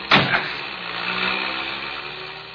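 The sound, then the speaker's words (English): A car engine is started and slipped into gear, opening with a sharp burst and then settling into a steady, broad whirring run that slowly eases off. “Start it. Slip it in gear. Hop out.”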